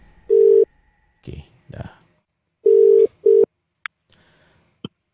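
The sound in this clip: Telephone line tones as a radio show dials out to a caller: three steady mid-pitched tone bursts, the last two close together, with short muffled sounds between and a couple of brief high clicks near the end.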